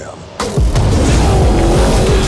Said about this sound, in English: Guys, they got a tank.